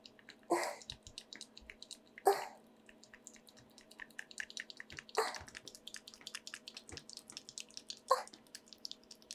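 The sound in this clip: Wet genital sounds from an aroused woman: four louder squelching smacks stand out among many soft, sticky clicks, with a faint low hum underneath.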